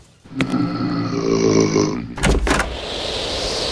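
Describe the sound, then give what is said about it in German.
A door being opened: a long, drawn-out creaking tone, then a short clattering burst, followed by a steady rushing noise. “mach mal bitte die Tür auf”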